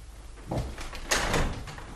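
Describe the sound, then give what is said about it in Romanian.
A locked door is tried, one locked from the inside, giving a few dull knocks and rattles of the door against its frame. A sharper burst comes near the end, with no voices. “cine mi-a încuiat ușa? Deschide!”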